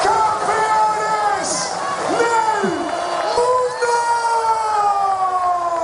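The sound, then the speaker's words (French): A huge crowd in Madrid celebrating the returning world champion team: loud, continuous din with wavering, siren-like horn tones that swoop up and down over the noise. “Deux millions d'Espagnols réunis pour accueillir leur champion du monde, tout juste de retour des États-Unis. La liesse s'est prolongée toute la nuit”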